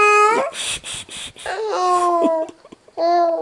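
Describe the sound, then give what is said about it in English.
A baby girl babbles and squeals in several loud bursts, including a run of rapid giggle-like pulses, with short pauses between the vocal outbursts. “I don't know why I tell babies to shush when they're making noise”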